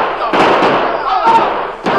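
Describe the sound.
Gunshots ring out in a radio drama scene where crooks fire at charging colonists: a few sharp bangs cut through a dense, noisy background.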